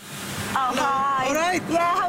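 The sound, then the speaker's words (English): Water spray hisses at a car wash in the north of England, a broad steady wash of noise at the start, then a voice talks over fainter background noise for the rest. “A car wash in the north of England.”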